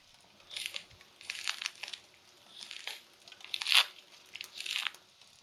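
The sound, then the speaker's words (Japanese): Skin being peeled off a mandarin orange: a series of soft, crinkly tearing rasps, some brief and some drawn out, quiet with short gaps between them. “おみかんの皮、楽々きれいにむけるのし。”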